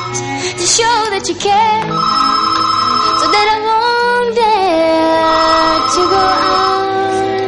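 A telephone ringing with a loud, sustained, tonal electronic ring whose melodic pitches glide up and down, with no talking.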